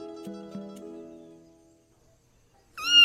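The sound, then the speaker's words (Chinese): A single high meow from a small black cat with white paws rings out briefly at the end, after a fading tonal sound and a moment of near silence. “却听到一声喵叫”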